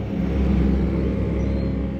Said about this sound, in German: In einem propellerbetriebenen Sumpfboot donnern die Amerikaner auf ihrer Grenzpatrouille an uns vorbei.